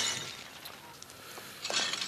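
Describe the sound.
A plate with a crack breaks in a staged holiday skit, a sharp shattering crash with bright clinking of fragments, then a second louder burst of breakage near the end.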